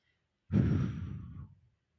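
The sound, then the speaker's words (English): One deep breath let out as a long, soft sigh, starting fairly strongly and tapering off over about a second. Faint and heard alone. “So as you're pressing right here, you're just going to take a deep breath.”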